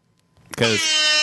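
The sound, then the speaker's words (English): Air horn blast: after a brief quiet moment a loud, brassy, sustained horn tone bursts in and holds steady to the end. “Well, I think with that air horn, we're probably going to wrap it up.”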